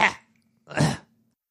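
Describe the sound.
Someone clears their throat twice, a short harsh burst followed by a longer, rougher rasp, with silence between and no talk.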